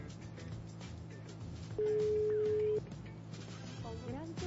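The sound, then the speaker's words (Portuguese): A telephone ringback tone sounds on a call placed to a radio listener. It is one steady, mid-pitched tone lasting about a second, with voices and background noise around it. “Produção, pode ligar para o primeiro ouvinte. Vamos ver o que ele vai responder. Não tá chamando. Tá chamando aqui, Opa, ó. Tá chamando.”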